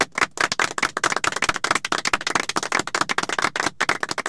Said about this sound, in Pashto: چکچکې ورته وکړه.